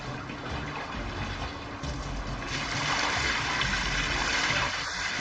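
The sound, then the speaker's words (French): Soybeans soaked overnight in water are unloaded at a soy milk factory, making a continuous wet, rushing and splashing noise that grows slightly louder partway through. “On a commencé à décharger ces graines de soja qui ont trempé toute la nuit.”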